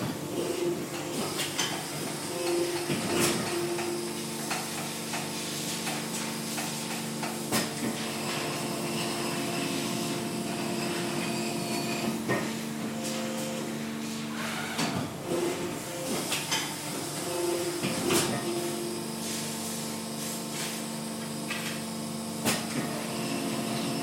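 An injection molding machine in a factory making clear acrylic Aristo 1552 set squares hums and hisses steadily, with mechanical clunks and thumps recurring every several seconds as it cycles.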